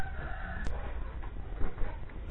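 Chickens clucking, faint and muffled beneath a constant background hiss, with a few short calls breaking through near the end.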